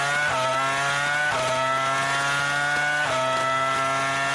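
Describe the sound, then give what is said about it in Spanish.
A 2000s-era Formula 1 V10 engine screams at high pitch and full volume, each climb in revs broken by sharp drops at gear changes, with a few upshifts in quick succession and no voices. “Fíjate qué sonido tan bonito, ¿verdad? Que para los fans del motor... Se te pone una sonrisa, Javi. Por supuesto. Esto es un V10, época de años 2000 de Fórmula 1.”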